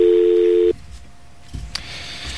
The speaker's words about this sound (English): All right, now let's make sure it worked. And you'll see what the difference is. Okay, that's hopefully the last time I have to dial this number on the air.